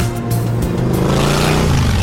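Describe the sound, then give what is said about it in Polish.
A motorcycle engine runs at a stunt riding show during an outdoor motorcycle fair, a loud, continuous, throaty drone with strong low harmonics whose pitch wavers slightly as the rider works the throttle. “Teraz jeszcze pokazy spektakularnej jazdy na motocyklu, czy wystawa zabytkowych jednośladów. W Łodzi trwa motopiknik.”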